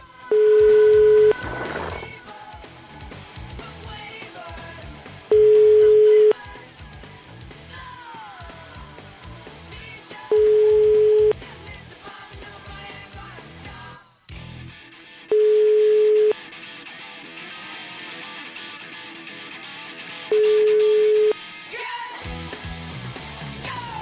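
A telephone ringback tone on a call that goes unanswered: five long, steady, mid-pitched beeps at even intervals, each sitting clearly above a continuous busy background sound.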